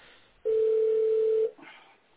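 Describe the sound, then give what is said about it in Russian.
A telephone dial tone sounds as one steady, mid-pitched beep lasting about a second. It is clear and alone, followed by faint low noise. “Гудок идет, значит, гудок идет.”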